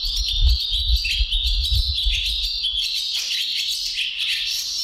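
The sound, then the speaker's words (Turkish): Swallow calls recorded in Bursa, a busy, high-pitched twittering of rapid chirps and trills that runs almost without pause, with a faint low rumble underneath. “Kırlangıcını Ensar Ertekin Bursa'da kaydettiler.”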